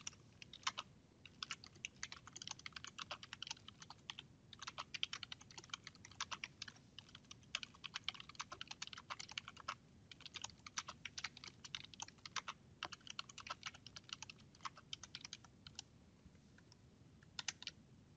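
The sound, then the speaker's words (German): Typing on a computer keyboard while entering text in Word Online, a long run of quick, uneven key clicks at a steady pace with no voices. “es wird Word Online gestartet und hier schreibe ich dann meine Einträge dazu”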